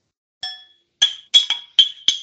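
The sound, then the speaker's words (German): Glasses clink together in a toast at a celebration: six bright, ringing chinks, one alone and then five in quick succession, each with a short shimmering decay. “Feiern jetzt ja auch noch ein kleines bisschen weiter und stoßen jetzt irgendwie, glaube ich, auch gleich nochmal kurz an hier.”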